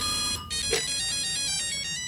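A telephone ringtone: a continuous electronic tone rich in bright harmonics, playing steadily throughout at moderate loudness, with no talk over it.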